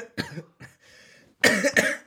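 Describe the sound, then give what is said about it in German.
Coughing from someone who has just choked on something: a series of sharp, harsh coughs with a softer breathy rasp in the middle, the final two bursts loudest. “Entschuldigung, ich habe mich verschluckt.”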